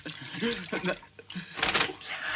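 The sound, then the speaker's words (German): Water is splashed onto someone's feet in an audio drama, heard as a brief, bright, splashy burst near the end, with voices speaking before it. “Du Hund, du hast mich absichtlich nass gespritzt. Ich hab gedacht, du brauchst mal ein Fußbad.”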